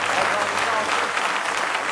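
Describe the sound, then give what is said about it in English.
Many hands clap in praise at a church camp meeting, a thick, continuous wash of applause that holds at a steady level from start to finish. “Give the Lord one more hand clap of praise tonight.”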